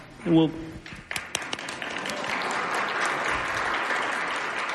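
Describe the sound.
A short voice opens, then scattered claps quickly build into steady, sustained audience applause at a panel discussion on economic mobility.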